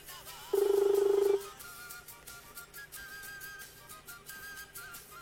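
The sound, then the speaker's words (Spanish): A telephone ringback tone on a call to a municipal office in Ceres, Santa Fe, that nobody answers: one steady, low, buzzing ring lasting about a second, then only faint line hiss. “A ver si nos atiende. Siete de la mañana, 15 minutos. No contesta nadie en Ceres.”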